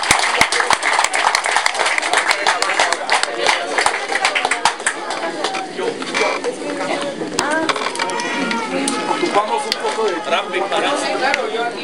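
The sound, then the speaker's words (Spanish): Audience applause at a hip hop event welcoming a rapper: dense, continuous clapping with crowd chatter and voices mixed through it, holding a steady loudness throughout. “Lo recibamos con un fuerte aplauso.”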